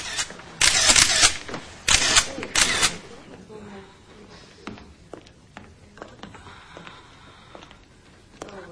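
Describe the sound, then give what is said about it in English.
A police photographer's camera flash and shutter fire in a few loud, sharp bursts, then give way to many faint clicks and taps. “the flash from the police photographer's camera”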